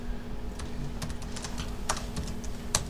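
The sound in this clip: Keystrokes as a password is typed on a computer keyboard: a quick, irregular run of many sharp, light clicks, fairly faint over a steady low hum, with no voices.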